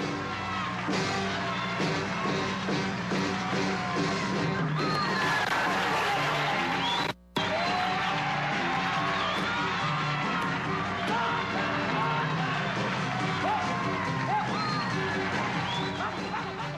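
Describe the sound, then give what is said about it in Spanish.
Canned crowd screams from a vinyl sound-effects record, standing in for a television studio audience: dense, continuous yelling and whooping that stays loud throughout, broken by one brief cut to silence partway through. “Se me ha olvidado los gritos, que son gritos ficticios, son grabados, ¿no? Porque no había tanta gente en el estudio de televisión. Los ponían en los discos de vinil, ¿no?”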